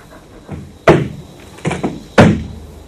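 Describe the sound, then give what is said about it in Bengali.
A door being opened, with a few sharp thuds and knocks at uneven intervals. The two loudest bangs ring briefly, and there is no talk. “ঠিক আছে, দরজাটা খুলে দাও তুমি, আমি আমি পেছনে আছি।”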